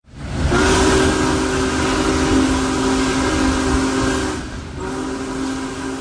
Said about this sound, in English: The Big Boy locomotive continued its march toward Northeast Pennsylvania today with a trip from Sayre, Pennsylvania to Owego and Binghamton in New York.